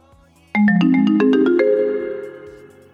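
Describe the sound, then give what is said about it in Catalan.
A phone ringtone signals an incoming call: a quick run of bright, bell-like synthesized notes starts suddenly and loudly, then the final notes ring on and slowly fade. “Perdoneu, m'estan trucant.”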